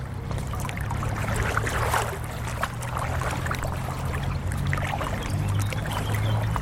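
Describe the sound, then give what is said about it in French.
Footsteps wade through water on a normally dry path that has flooded, a continuous wash of sloshing and splashing that stays fairly even throughout, with no voices. “Alors là, on commence déjà à marcher dans l'eau.”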